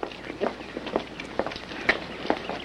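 Quick footsteps of people hurrying out of a rehearsal building, a man striding ahead with a woman close behind: many faint, light, evenly spaced steps at a brisk pace.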